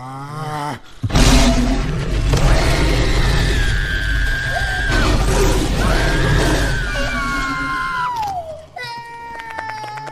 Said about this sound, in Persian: خب یه نعره قوی بزن آقای آب دماغ الان وقتش نیست یالا منتظر چی هستی نعره